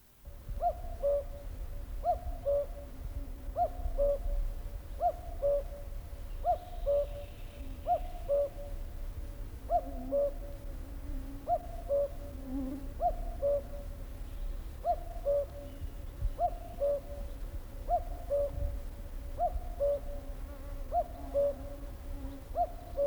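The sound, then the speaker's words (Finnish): Common cuckoo singing its low, hooting two-note call, repeated many times at a steady, even rhythm over a constant low background hum. “Käki.”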